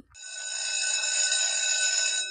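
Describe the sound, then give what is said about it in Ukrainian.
A bell ringing in one steady, sustained electric tone lasting about two seconds, bright and buzzy with dense overtones, alone without talk. “Це продзвенів дзвінок. Продзвенів дзвінок. The bell rang.”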